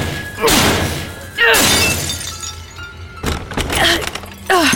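A window's glass smashed with a garbage can: a few heavy, loud crashing impacts with bright shattering and scattering debris between them.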